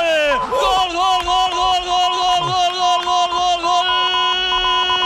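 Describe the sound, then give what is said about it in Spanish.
Travelling Villarreal football supporters celebrate at El Sardinero stadium: a loud, sustained crowd roar with steady chanted tones running through it from start to finish. “lo celebran los aficionados del Villarreal desplazados. Hay alguno que otro ahí en el Sardinero, ¿eh? Unos cuantos en la curva sur”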